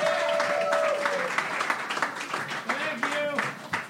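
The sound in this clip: Applause from a comedy audience welcoming a comedian to the stage, brisk clapping that starts full and gradually thins into scattered claps, with voices and cheers mixed in.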